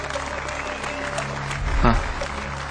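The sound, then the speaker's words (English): Studio audience applause on the Who Wants to Be a Millionaire game show, a dense, steady wash of clapping mixed with music tones and a voice, swelling briefly near the end. “Please give a big round of applause.”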